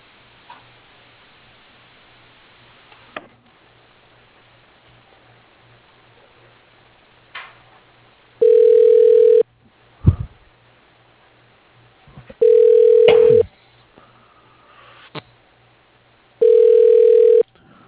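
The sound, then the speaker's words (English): Telephone ringback tones sound on a call line as the call transfers to voicemail: three steady, evenly pitched rings about a second long, separated by gaps with a few clicks and line noises. “I'll transfer you to his voicemail.”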